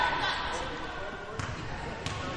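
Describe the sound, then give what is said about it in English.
A basketball is dribbled right-handed at the free throw line during a women's basketball game. Two sharp, hollow bounces are heard under a speaking voice and background murmur. “Right-hand dribble at the free throw line.”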